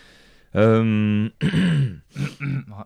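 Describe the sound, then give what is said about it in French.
Throat clearing: a long, rough, voiced rasp followed by a few shorter vocal bursts. “Je vais racler ma gorge.”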